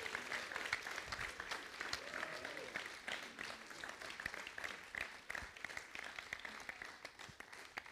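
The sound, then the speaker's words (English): Audience applause welcomes a guest speaker to the stage: dense, continuous clapping that stays loud and steady from start to finish over about eight seconds. “Why don't you give him a warm, rousing welcome as he comes today?”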